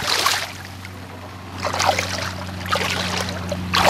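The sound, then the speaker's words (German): Water splashes as a person wearing diving goggles jumps in, giving several bursts of sloshing and churning over a low, steady hum. “Jetzt montiere ich selber mal die Taucherbrille und jucke mal da ins Wasser rein.”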